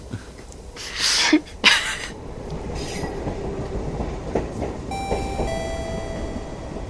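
A São Paulo metro train runs with a steady rumbling clatter, two louder bursts early on, and a thin high whine appearing later.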